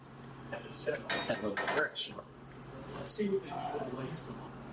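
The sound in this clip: Pots, pans and cutlery clatter and clink while HelloFresh cheeseburger wraps are cooked in a kitchen, the scattered metallic knocks mixed with a man talking.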